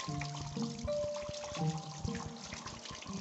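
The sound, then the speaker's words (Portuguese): Running tap water as hands are washed, a steady splashing stream with brief irregular bursts. “deixa eu lavar a mão aqui.”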